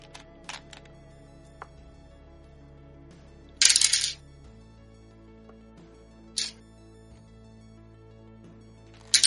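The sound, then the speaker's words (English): Four-sided dice clatter in a dice tray during a tabletop game: a few short rattling bursts, the longest about half a second, separated by quiet stretches with light clicks. “My d4 are all at the bottom of my dice tray. Should I mean to roll d4s?”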